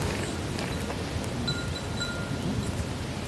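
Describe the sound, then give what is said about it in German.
Flags on a parade square flap in the wind during a silent ceremony, a steady, quiet rushing with faint, sparse metallic pings as they strike the flagpole. “was du gehört hast, waren diese Fahnen auf dem Platz, die im Wind geweht haben und immer wieder gegen diesen Fahnenmast geschlagen haben.”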